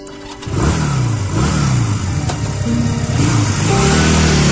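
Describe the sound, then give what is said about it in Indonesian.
A motorcycle engine starts up and is throttled hard, loud and steady, rising and falling in a few revving surges as the rider pulls away. “aku menstarter motorku dan tancap gas.”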